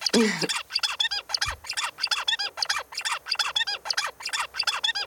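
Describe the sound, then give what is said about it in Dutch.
A zebra finch sings while its brain is altered by a drug, giving many short, buzzy, high-pitched bursts repeated in a fast, regular rhythm with brief gaps between them. “Ja, en dan nu de zebravink, terwijl hun hersenen dus gemanipuleerd zijn door een middeltje.”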